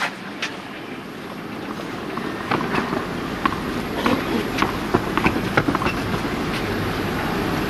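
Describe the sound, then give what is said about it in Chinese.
Light wind blows across an outdoor tennis match, a steady low rumble and broad hiss running throughout, with a few faint sharp ticks rising above it. “现场还是有一些微风啊，但是相较于昨天女单决赛的风，今天的风算是很温柔了。”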